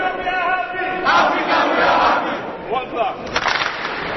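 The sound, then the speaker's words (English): Sixty teenage basketball campers cheer and shout a thunderous welcome to NBA coaches and players on their first day at camp, a loud, sustained crowd roar with rising yells. “The 60 teenage players give a thunderous welcome to the NBA coaches and players on their first day at the camp.”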